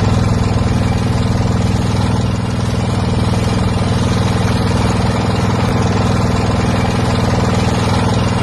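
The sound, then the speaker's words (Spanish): A boat engine on a river trip in Laos runs in a loud, steady low drone with a rattling mechanical clatter, unchanging for the whole stretch and with no voices. “El sonido es el motor de una barca que nos puede llevar hasta Bang Bien”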